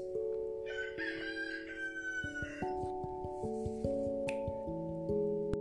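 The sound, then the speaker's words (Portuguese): A rooster crowing, a cartoon-like cock-a-doodle-doo in a children's story, over sustained keyboard-like notes, followed by stepping musical tones and light clicks. “Bom dia, diz o papai galo.”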